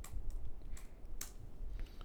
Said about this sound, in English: I should be able to type faster with one hand.